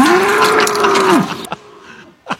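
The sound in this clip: A bull at a county fair moos once, a loud, low, steady call of about a second that trails off, followed by a couple of brief, fainter sounds.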